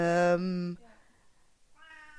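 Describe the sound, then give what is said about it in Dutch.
A cat meows loudly in one drawn-out, harmonically rich cry that tapers off. After a short lull, a softer second meow follows. “kat komt er tussendoor. Ja, de kat komt er tussendoor.”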